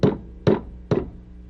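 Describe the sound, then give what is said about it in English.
A hammer drives nails with three sharp, evenly spaced knocks. Each strike rings briefly and then fades before the next. “You could pretend you're hammering while I'm hammering these nails in here.”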